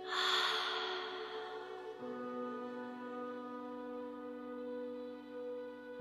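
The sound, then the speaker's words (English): A big deep breath, heard as a breathy, sigh-like rush at the start that quickly fades, laid over a steady, low sustained musical drone whose lower note shifts partway through and then holds. “Take a big deep breath in. Let it out.”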